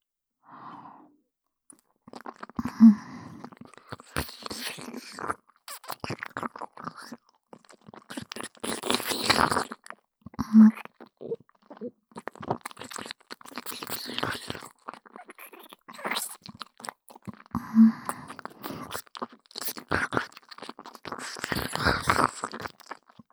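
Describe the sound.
Someone bites into crunchy food and chews it up close. Many faint, sharp crackling crunches come in bursts with pauses between them, and soft breathing fills the quiet gaps.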